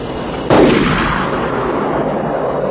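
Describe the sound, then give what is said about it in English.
A single gunshot from someone shooting across a field: one sharp, loud crack followed by a lingering rumble over steady background noise. “Shooting at us again. Well, he's shooting up the whole horizon”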